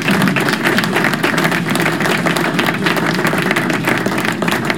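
Applause from an audience: a dense, steady wash of many hands clapping at once, loud and even throughout, with no separate claps standing out.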